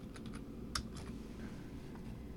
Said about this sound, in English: I gotta type in the Part 2.